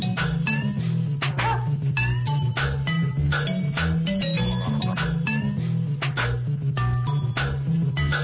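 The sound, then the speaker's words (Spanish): Music played on water as an unconventional instrument: a steady, rapid pattern of bright percussive taps and clinks runs over a sustained low, droning tone throughout. “Nada de lo que suena es convencional. Y es que alrededor de nosotros tenemos objetos que son capaces de producir música con un poquito de sensibilidad y con un poquito de buen gusto. Eso que sonaba de toque, eso es agua”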